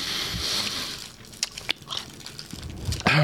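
Someone chews a sour candy, with a few sharp, wet crunches and mouth clicks popping out at irregular moments over a quiet background.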